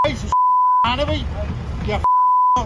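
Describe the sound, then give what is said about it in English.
Censor bleeps cover a man's swearing during a roadside verbal onslaught against a politician: two long, steady, mid-pitched electronic tones, with loud agitated speech between them. “Wow, I haven't heard that much beeping since I watched Kitchen Nightmares”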